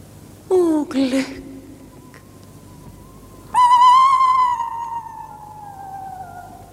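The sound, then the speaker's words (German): An owl hoots twice in a 1946 drama production: first a short call that drops in pitch, then after a pause a long, loud, drawn-out cry that slowly sinks as it fades. “Furchtbar ist dieser Eulenruf.”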